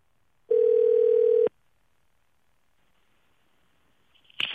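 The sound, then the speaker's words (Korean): A telephone ringback tone sounds while a call is being placed: one steady, clear tone lasting about a second, then quiet, and a short sharp sound at the very end. “270 하나님께 한번 전화 한번 걸어보겠습니다.”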